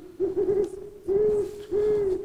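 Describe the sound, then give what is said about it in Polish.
An owl hoots three times, each a low, steady, slightly wavering tone lasting under half a second, separated by short pauses and heard alone. “Sowa.”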